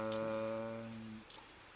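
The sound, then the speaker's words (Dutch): Heavy rain falls in a steady, dense hiss. A low humming tone runs under it for about the first second and then stops, leaving the rain alone. “Het begint nu fel te, ja, regenen. Ik hoor misschien, het. Ja, je hoort het.”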